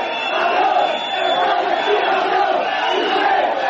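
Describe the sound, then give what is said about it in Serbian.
A football crowd whistles and shouts insults at Piqué as he comes onto the pitch at a national team training camp, a dense, continuous roar of jeers with a thin whistle running through it. “U trenutku kada je Piqué izlazio na teren, trening kampom, čuli su se glasni zvižduci i uvredljivi povici koji su mu upućeni.”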